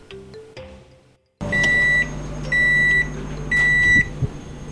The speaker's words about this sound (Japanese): はい、はい、焼き上がりました。 綺麗な焦げ目がついて美味しそう。